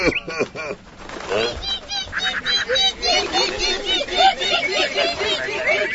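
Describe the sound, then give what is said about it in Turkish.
Dense, overlapping goose-like honking from a large flock of birds flying overhead, loud and continuous from start to finish with many calls layered on top of one another. “Bu sesler de ne? Aa, kuşlarmış. Ne de çok kuş öyle. Bütün göğü kaplamışlar sanki.”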